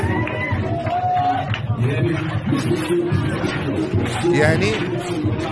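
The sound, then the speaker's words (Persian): Crowd at a gay party in Karaj, heard from a played video: a continuous hubbub of many overlapping voices, chatter and shouts, at a fairly even level throughout. “این یه گی پارتی در کرجه ببینید”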